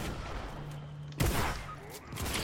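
Gunfire in a video game: a sudden sharp burst of shots cuts in midway and trails into rough, noisy firing that dips briefly, then swells again over a low steady hum.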